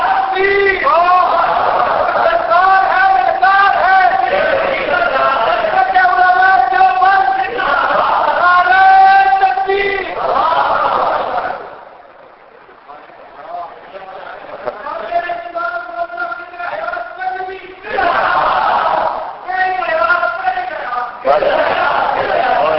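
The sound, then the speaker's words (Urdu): A crowd at a religious debate gathering chants the Nara-e-Takbeer slogan in loud, rhythmic, call-and-response bursts. The chanting breaks off for a few seconds partway through, then resumes in shorter, forceful surges. “بس بھائی نعرے کی اجازت نہیں ہے، صرف نعرے تکبیر جگانے کے لیے لگا سکتے ہو، بڑھنے کی اجازت نہیں۔”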